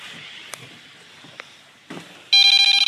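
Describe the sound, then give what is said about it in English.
A mobile phone's ringtone breaks in as loud, rapidly pulsing electronic tones after a stretch of quiet hiss with a few faint clicks and knocks. “That was my phone.”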